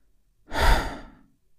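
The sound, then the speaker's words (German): A single slow exhale during a guided relaxation exercise: a soft, breathy rush of air that swells quickly, then tapers off gently over about a second. It is heard alone, with no talking. “und mit dem nächsten Ausatmen,”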